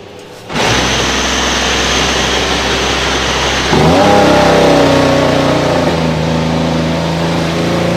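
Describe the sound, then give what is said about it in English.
A racing car accelerates out of the pits during a session, its engine a steady, loud drone that steps up sharply partway through, growing stronger and more tonal as it pulls away. “let's actually see Yuki Tsunoda here coming out of the pits.”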